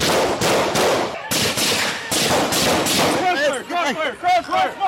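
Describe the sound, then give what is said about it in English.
Police gunshots: many sharp, loud bangs fired in rapid succession, followed by urgent shouting voices. “Crossfire! Shots fired!”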